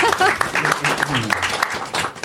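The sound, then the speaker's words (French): Audience applause at a live talk, a patchy, moderate clapping that runs beneath a person speaking over it. “Un applaudissement.”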